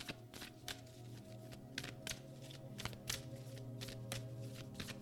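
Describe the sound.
Moonology oracle cards being shuffled, many quick, crisp papery riffles in an irregular rhythm, faint over a steady low hum.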